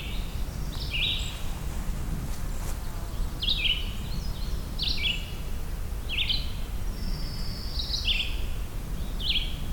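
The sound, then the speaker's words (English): Faint American robin song carries over a meadow as many short, high whistled phrases repeat at an even pace above a steady low background rush. “You hear a distant American robin there.”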